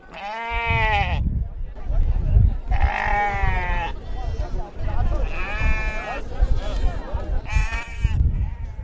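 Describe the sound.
Sheep and goats bleat at a busy livestock market in Hargeisa, where animals are gathered ready for export. Several loud, wavering bleats rise above steady crowd and animal noise, while a voice talks throughout.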